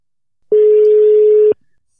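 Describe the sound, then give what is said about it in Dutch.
A telephone ringback tone sounds as a call is placed: one steady, mid-pitched electronic tone lasting about a second, starting and stopping abruptly, heard alone. “Dus ik ga nu proberen om jouw moeder te bellen.”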